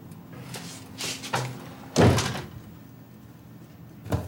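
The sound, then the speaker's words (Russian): A door is shut with one loud, dull thud. A few fainter knocks and bumps come before it, and the sound is quiet afterward. “Александр Николаевич закрыл дверь”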